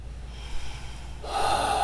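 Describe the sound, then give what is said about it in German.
A deep inhalation during a breathing exercise, a strong airy intake of breath that swells in the second half after a quiet stretch, heard alone without talk. “Nochmal tief einatmen. Einatmen ist aktiv. Wir pumpen die Lunge, saugen die Lunge voll.”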